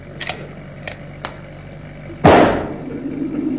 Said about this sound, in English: They're shooting at us. They're shooting at us, Mr. Mannering.